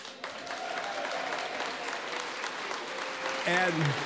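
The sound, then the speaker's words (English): Loud, steady applause from a live audience at a garden talk event in Bayfield, dense continuous clapping that swells slightly near the end. “And as you can hear, we have a great live audience for today's show.”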